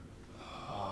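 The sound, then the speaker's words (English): A voice imitates deep, heavy breathing, a single drawn-out breathy rasp that grows gradually louder over about a second, with no words. “So in the middle of your conversation, you hear deep, heavy breathing.”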